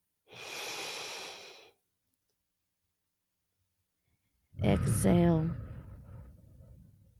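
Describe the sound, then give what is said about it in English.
A deep breath in and out: a long, airy inhale lasting over a second, a few seconds of silence, then a louder breathy exhale blended with a voice. “So would you just take a moment right where you are and just take a deep breath. Inhale.”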